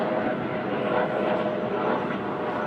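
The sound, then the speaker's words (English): Helicopter flying overhead in a park, heard as a steady, broad engine roar that holds at an even, moderate level throughout without clear change. “wow, what is happening here with this helicopter? Some problems, I hope not.”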